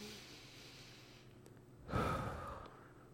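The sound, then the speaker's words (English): One deep breath, heard as a soft, breathy rush of air that swells about two-thirds of the way through and then fades. It is faint and alone, with a quiet background before it. “let's take a deep breath”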